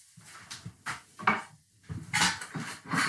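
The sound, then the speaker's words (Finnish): An upper kitchen cupboard is opened, with a few clattering, clinking knocks as the door moves and items inside, stored glass bottles, rattle in short, uneven bursts. “jos mä avaan ton yläkaapin täällä keittiössä.”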